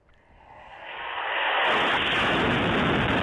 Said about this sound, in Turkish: Ve işte o saldırılardan biri, patlama anı.